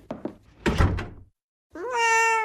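A cat gives one long, clear meow that rises and then holds steady. It follows a few dull knocks and thumps, like a door, and a short silence.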